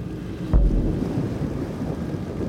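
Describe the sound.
A flat-hulled boat slams down onto a wave with a single deep, low boom, over steady wind and water noise that carries on after the impact.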